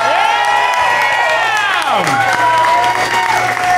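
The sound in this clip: Cheering and applause from an audience welcoming a guest onto the stage: steady, loud clapping with a long, strong shout-like whoop that slides down in pitch near the middle.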